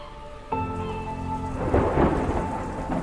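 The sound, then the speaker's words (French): A night thunderstorm over a farm in North Africa: steady rain patters throughout while deep thunder rolls in, swelling loudest midway before easing back under the continuing downpour. “La nuit du 7 novembre 1913, l'orage gronde.”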